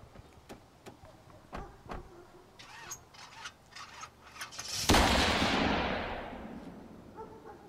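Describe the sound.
A van starts and drives off. A run of sharp, irregular knocks and clicks comes first, then a sudden loud roaring burst that slowly fades away.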